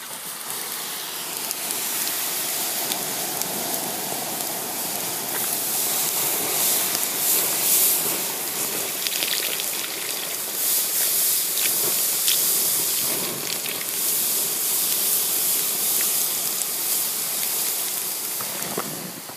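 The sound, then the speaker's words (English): Uncooked rice pours into a cup as a dense, steady granular hiss with fine patter that stays fairly even throughout. “Rice coming into a cup. So like someone pouring rice into a cup, like before it's been cooked? Uh-huh. Excellent guess.”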